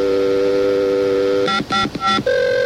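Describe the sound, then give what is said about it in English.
Telephone dialing tones from a speed dialer: a steady line tone, then three quick bursts of beeping tones, then a higher steady tone, heard alone. “You got to put it on the speed dialer so we can just keep dialing it, and eventually it'll get through.”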